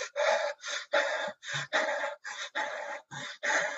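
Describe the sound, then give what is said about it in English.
A person demonstrates exaggerated anxious breathing in a quick run of sharp, airy gasps. Many short inhales and exhales follow in uneven bursts with brief gaps, and no talk is heard. “So if I'm feeling anxiety, what I do is I really accentuate the anxiety breath.”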